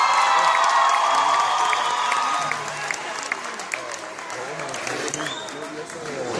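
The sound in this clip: Audience applause and cheering at a live concert, loud at first and easing slightly partway through, with scattered whoops and shouts and voices mixed into the dense clapping.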